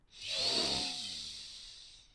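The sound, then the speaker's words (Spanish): A single deep inhale through the left nostril during a breathing meditation: a soft, airy nasal hiss that swells within a quarter second, then tapers gradually for about two seconds. “Vamos a respirar cinco veces por el lado izquierdo. A tu ritmo, inhala profundo”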